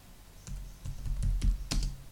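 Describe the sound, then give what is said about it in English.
Fingers type on a computer keyboard in a quick, irregular run of clicks, with a few sharper taps standing out and no talking. “So if I start typing on the keyboard,”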